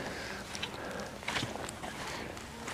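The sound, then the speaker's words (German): Footsteps on a small, very muddy, boggy peat dam in a wet moor: faint soft squelching steps, a few at an unhurried pace. “Und hier, wo ich laufe, ist so ein kleiner Damm. Das ist sehr, sehr matschig. Morastig, im wahrsten Sinne des Wortes.”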